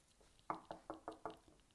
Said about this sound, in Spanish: Se dirigió a la de paja y llamó a la puerta.